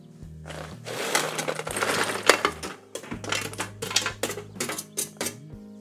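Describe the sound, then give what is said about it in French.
Dried fruit being stirred and coated in a bowl makes a busy clatter of small pieces and clinking utensils in quick, repeated strokes. The sound is fairly loud, with no talk. “Je mélange bien, bien, bien, bien. J'enrobe.”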